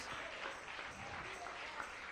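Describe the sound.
An audience claps in praise during a Spanish-language church service, a faint, steady clatter of hands with voices mixed in.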